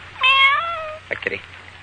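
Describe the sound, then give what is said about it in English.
A cat meowing: one drawn-out, clear meow that holds its pitch for under a second, followed by a few faint, brief soft sounds. “Kitty. Sleepy kitty. Cat doesn't seem to like me. Goes right out the window.”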